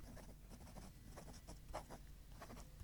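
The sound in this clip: A pen scratches softly across paper while someone writes a condolence letter. The strokes are faint and uneven, with brief pauses between them and no voices.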